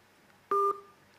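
Telephone line tone as a caller's connection drops during a live phone-in: one short, steady two-tone beep, loud and clean, lasting a fraction of a second before fading quickly.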